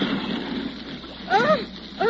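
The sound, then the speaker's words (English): Water splashes and churns around a small boat whose propeller has struck a reef. A steady rushing wash swells near the end, and shouting voices break through the noise. “You rocked the boat and the propeller hit the reef.”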